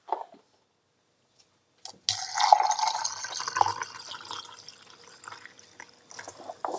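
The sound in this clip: Spring water poured from a glass into a three-litre jar of oats to make homemade kvass. A brief splash comes first, then a steady gurgling, trickling pour that runs for several seconds with no voices.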